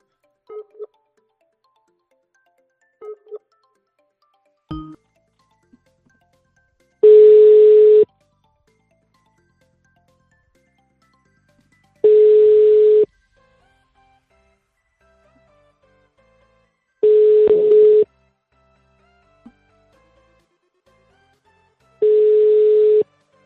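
Telephone line tones on a call placed to a debt-collector's number. A few brief clicks and short beeps come first, then four long, steady, mid-pitched beeps sound alone, evenly spaced about five seconds apart.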